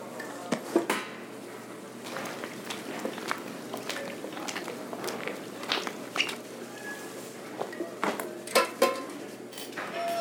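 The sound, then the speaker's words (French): A basin being picked up and handled, giving many scattered knocks, clatters and scuffs with light footstep-like taps in an irregular rhythm, some sharp, most fairly soft. “Suis-moi. Et prends cette bassine-là.”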